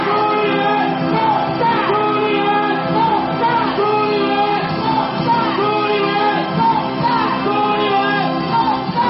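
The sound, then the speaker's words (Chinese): A rally crowd at a candidate's election-eve event shouts a campaign slogan in a loud, dense, continuous roar of many voices that rises and falls throughout. “主持人在呼吁大家从位子上站起来，挥动着大家手上的旗子，大喊朱立伦动算。全场的气氛达到了顶点。”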